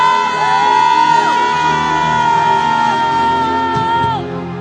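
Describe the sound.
Church audience shouting to the Lord, a loud and sustained crowd roar with one held, high-pitched voice riding above it. It eases off slightly near the end.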